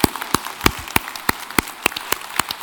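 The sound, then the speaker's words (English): Sparse handclapping from a small gathering at a shared meal, thanking those who cooked. About a dozen sharp, separate claps come at a steady, even pace, crisp and clear with nothing else behind them. “Would you mind just giving a round of applause for those that helped cook the meal and get that prepared?”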